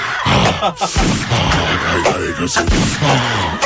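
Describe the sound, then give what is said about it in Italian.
A parody advert carries a few sharp gunshot bangs that punch through a dense, loud mix of other sound. “Ma perché spara poi?”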